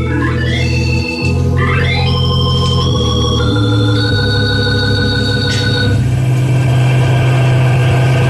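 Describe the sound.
A car engine runs steadily on the road in a loud, droning hum, its pitch stepping up and down several times as the car drives on, with no talk.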